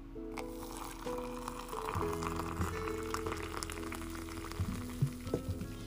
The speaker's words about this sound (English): Coffee cheers, my friends, because this is the sound of heaven.